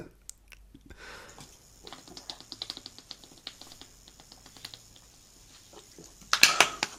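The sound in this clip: A person drinking loudly in a run of gulps and swallows: many soft, wet clicks at an irregular rhythm, then a short, louder burst near the end.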